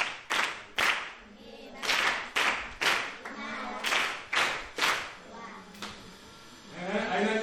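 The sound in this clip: Hand clapping for a pupil's correct answer in a Swahili grammar lesson, with many sharp claps in rhythmic bursts separated by short pauses.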